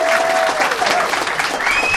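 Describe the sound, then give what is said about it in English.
An audience claps steadily to welcome a guest onto the stage, a dense, even wash of applause that stays loud for the whole moment. “A big round of applause.”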